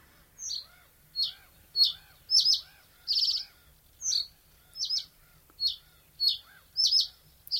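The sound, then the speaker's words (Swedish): A reed bunting sings, repeating many short, high, bright chirping phrases separated by brief silences in a fairly regular rhythm, heard alone against a quiet background. “Men sävsparven, vi kan lyssna på hur sävsparven sjunger.”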